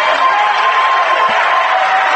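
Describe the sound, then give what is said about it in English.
Basketball fans at a Botkins game stand and applaud their team as the starters leave the floor, a steady, dense wash of crowd noise with no distinct individual claps. “Botkins fans still standing and applauding their team's effort as the starters come off the floor.”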